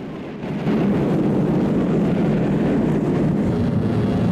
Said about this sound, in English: The thrusters fire up, ejecting a thick cloud of gas which fills up the launch area. Then the pod slowly lifts off.